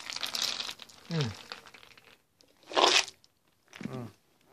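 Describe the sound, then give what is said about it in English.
A label is ripped off a container of nuts with crinkling and tearing in a few short, noisy bursts separated by pauses. Brief voice sounds occur among them. “Rip this label off. They ain't paying me. Rip this goddamn label off.”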